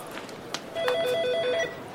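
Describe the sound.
A telephone rings at an office desk with an electronic warbling trill that alternates rapidly between two tones in one steady burst of just under a second. It is moderately loud and heard alone, with no voices.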